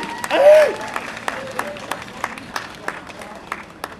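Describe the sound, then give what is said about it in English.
Audience applause at a community gathering: a brief voice or cheer at the start, then scattered, sharp claps that keep going at a sparse, uneven pace. “Give yourself a big hand. We did it.”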